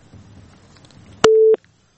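A single short, steady electronic beep of a telephone disconnect tone as a listener's phone-in call drops, loud and clean, after a faint low murmur, then silence.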